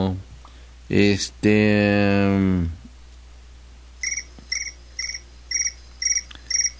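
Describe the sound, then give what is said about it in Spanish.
Cricket chirping in short, high, regular bursts, about seven evenly spaced chirps, after a brief opening stretch of voice. “ahora ya tenemos grillo, tenemos campanas.”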